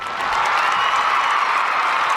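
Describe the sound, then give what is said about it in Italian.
Steady applause from an audience, a dense, continuous wash of clapping at even loudness throughout, with no single claps standing out. “non riesco neanche a parlare dagli applausi”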